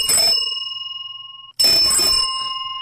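Two bright rings from a large vintage British Lucas bicycle bell made in the 1930s, each strike followed by a long, shimmering metallic ring that carries on until the next strike or the end.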